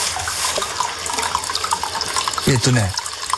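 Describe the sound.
Hot spring water, free-flowing straight from the source and slightly lukewarm and silky, pours into a footbath as a steady, loud, hissing rush; a voice briefly cuts in near the end.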